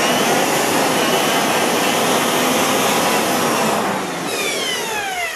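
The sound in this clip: An electric mixer whirs loudly as it blends pottery glaze for dipping a mug, a steady rushing motor whine. Near four seconds it eases off, and its pitch falls as the beaters spin down.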